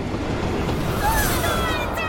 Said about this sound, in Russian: Поезд выезжает из туннеля.